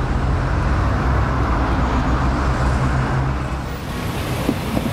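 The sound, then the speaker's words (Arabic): Road traffic jam noise: a dense, steady roar of vehicles on a congested road, loud and continuous throughout, with no single passing vehicle or horn standing out. “في زحمة بالطريق”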